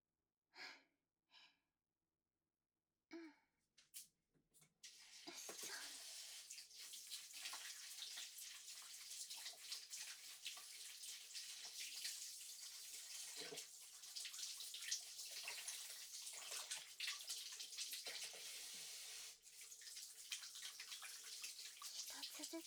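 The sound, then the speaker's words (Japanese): Tap water runs steadily while vegetables are washed before cooking nikujaga, a meat-and-potato stew. A few brief handling knocks come first, then a continuous hiss of flowing water holds throughout. “まずは野菜を洗うところから。”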